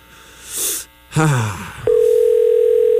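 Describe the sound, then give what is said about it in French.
A steady telephone tone sounds while someone is being called. It follows a few brief noises and then holds loud and unbroken to the end. “Et là, on les rappelle pour leur dire merci.”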